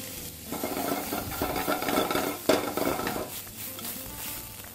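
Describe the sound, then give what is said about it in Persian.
Garlic and shrimp sautéing in a pan, a steady, dense sizzle with stirring and occasional scrapes of a utensil against the pan, holding an even level throughout with one sharper clatter midway. “بوی سیر آدم رو دیوونه میکنه وقتی با میگو تفت داده میشه”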